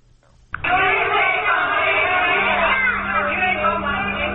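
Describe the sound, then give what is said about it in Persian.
Massed voices of tens of thousands of Afghan refugee children chanting in protest, gathered in an enclosed place in Islamabad, Pakistan. The loud, sustained chorus begins abruptly after a brief quiet moment and carries on without pause. “این صدای اعتراض ده هزاران کودک پناهجوی افغان است که ادعا میکنند پرونده های پی یک و پی دوی مهاجرت امریکا را دارند.”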